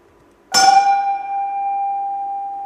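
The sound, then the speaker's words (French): A synthesized sound with a metallic attack: a sudden bright, bell-like strike gives way to a long, flat, unwavering tone that holds at steady loudness without decaying. “c'est un son de synthèse, qui est d'abord linéaire, et puis avec seulement, ensuite, une allure.”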